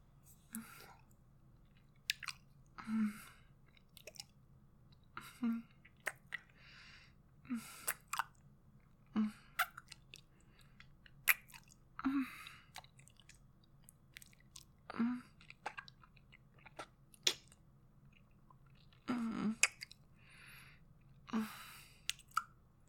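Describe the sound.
Soft, wet mouth sounds of chewing and biting, repeated irregularly over a long stretch, with quiet breaths between the bites and no clear speech.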